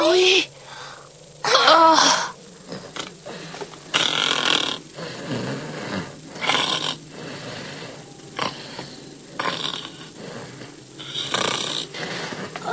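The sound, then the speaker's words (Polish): A person snoring while asleep: many rough, rasping snores at uneven intervals, loud breathy bursts rising and falling, with voices mixed in. “Chrapie. Chyba się zmęczył.”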